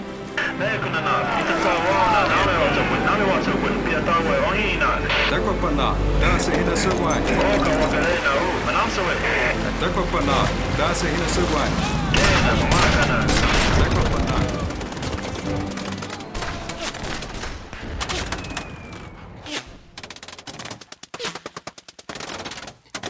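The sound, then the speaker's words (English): Sound-effect bullets whizzing by amid dense, continuous gunfire from a sound library, a busy roar of rapid shots that later thins into scattered sharp cracks toward the end. “When you have the bullets whizzing by your head, then you're all the way there.”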